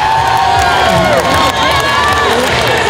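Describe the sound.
Loud, unbroken cheering and shrill shrieking from a crowd of mostly girls at a roller derby tournament in a large hall, many overlapping high voices yelling at once.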